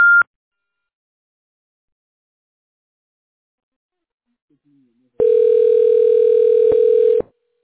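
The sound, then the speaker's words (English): Telephone tones on a call-screening line before a voice prompt: a brief high beep, a long silence, then a steady, lower, two-second tone that cuts off sharply. “please state your name after the tone and Google Voice will try to connect you”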